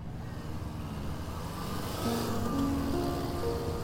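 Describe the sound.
A taxi's engine rumbles steadily as the car pulls up along a street, a low continuous drone that grows slightly louder partway through.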